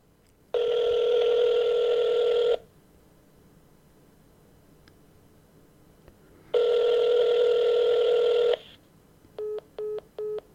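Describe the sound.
An outgoing call to a consumer help line rings back with two long steady tones, each about two seconds, several seconds apart. Three short beeps follow near the end.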